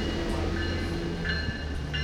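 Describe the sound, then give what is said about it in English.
SMART commuter train departing the station: a continuous low rumble and mechanical hum with steady tonal whines layered above, holding level throughout with no voices. “Train departing at 7:33. Next station, Larkspur.”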